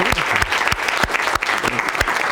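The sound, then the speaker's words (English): An audience applauds volunteers on stage with dense, lively clapping. Sharp individual claps stand out within the continuous wash of sound. “All right, a round of applause for our volunteers, if we could.”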